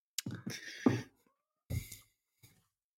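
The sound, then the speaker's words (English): A cat meowing softly, giving a few faint, drawn-out meows separated by short pauses, with the last call briefer and quieter. “So that's my cat. He's agreeing.”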